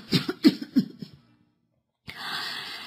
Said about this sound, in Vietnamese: Bà ngừng lại ho mấy tiếng rồi tiếp.